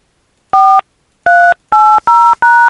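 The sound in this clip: Telephone keypad tones enter a voicemail password during a prank call: a single loud two-tone beep, a pause, then four quick, evenly spaced beeps in a row.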